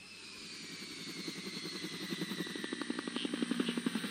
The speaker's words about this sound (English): As the helicopters roared over dense jungles and rice paddies in Vietnam